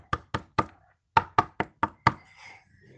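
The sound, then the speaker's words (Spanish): Knocking on a door in a children's story on a school radio programme: eight sharp, loud raps in two groups, three quick knocks, a short pause, then five more, with no talk over them. “Y después tocaron la puerta.”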